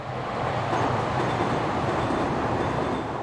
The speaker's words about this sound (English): are the elevated trains, or Ls. One line runs right next to the UIC Emergency Room, and I mean right next to it. So close, you can hear it outside the building,